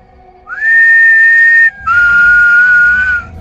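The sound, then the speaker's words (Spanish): Eerie whistling: two long, steady whistled notes separated by a brief gap, the second slightly lower in pitch, loud and alone. “El silbido se acercó un poco más y volví a aplaudir.”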